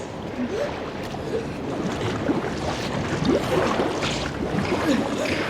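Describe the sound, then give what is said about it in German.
Flood water rises and churns in a canal, a loud, steady wash of rushing water with scattered gurgles and bubbling, continuous for the whole clip with no voices. “Das Wasser stieg und stieg. Hatte den Steg neben dem Kanal längst überflutet.”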